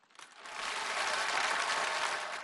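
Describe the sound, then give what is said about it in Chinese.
Audience applause, soft claps swelling quickly into a dense, even patter that holds steady for about two seconds before easing slightly. “我没想到掌声这么热烈”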